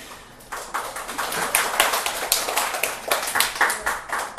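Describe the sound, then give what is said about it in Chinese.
Applause at a church gathering, a brisk run of many claps from a small group that starts after a short pause and stays fairly even and moderately loud. “新福通常在聚会中没有鼓掌的习惯。”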